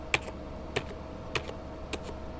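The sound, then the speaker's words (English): Four crisp, evenly spaced keystrokes on a computer keyboard as a password is typed in, each a sharp tap over a faint steady hum. “Oh, he's got info on his computer though. We're on the right track. He types in Huey.”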